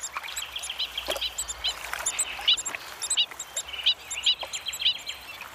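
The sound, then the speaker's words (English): Newly hatched stilt chicks call: many short, high, thin peeps and chirps, repeated in irregular bursts and overlapping, fairly clear above a soft background hiss. “The stilt chicks have hatched.”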